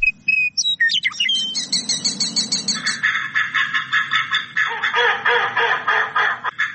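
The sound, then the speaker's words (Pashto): Migratory birds call at the Kol-e Heshmat Khan wetland on the edge of Kabul, a spring stopover: a busy mix of high chirps and trills, then a rapid, rhythmic series of repeated calls running steadily to the end, with no voices. “د کابل شهر په لمن کې کول حشمت خان هغه سیمه ده چې په پسردی کې هر کال له 300 تر 400 ډول مرغان دلته دمه کوي.”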